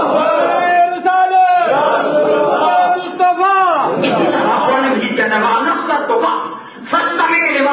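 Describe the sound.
A crowd answers the call Nara-e-Takbir by shouting Allahu Akbar. Many loud voices surge together in repeated chanted bursts, with brief dips between them.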